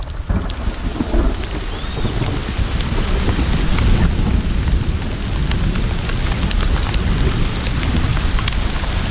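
Steady rain pours down in a cold downpour, a dense, even hiss that stays loud and unbroken from start to end, with no voices.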